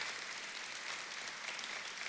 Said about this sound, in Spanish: Pode aplaudir ao Senhor.